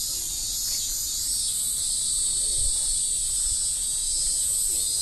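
Cicadas singing on an August day, a dense, continuous, high-pitched hiss and buzz that holds steady throughout.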